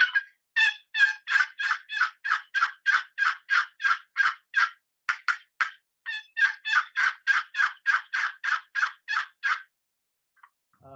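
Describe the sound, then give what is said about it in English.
Turkey calling made on a bloodwood-over-wormy-American-chestnut call: many rapid, raspy yelps in a steady, evenly spaced series, loud and alone, with a brief pause about halfway through. “So when I started making calls, I'm like, I might as well start making everything that, you know, sounds like turkey. So that was what I did. Yeah. This is Bloodwood over American Chestnut.”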